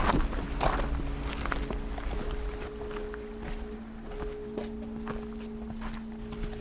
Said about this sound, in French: Bon, on y va, on attaque la grimpette.